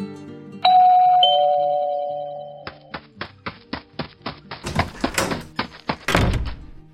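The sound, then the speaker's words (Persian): A house doorbell gives a bright two-tone ding-dong that rings out, followed by a quick run of many hollow knocks or thunks, the last few louder and rougher. “زنگ خونه رو زدن، رفتم در رو باز کردم.”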